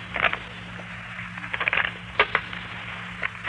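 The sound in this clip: A deck of fortune-telling cards being shuffled. A few short, papery riffling bursts come at irregular intervals over a low, steady hum.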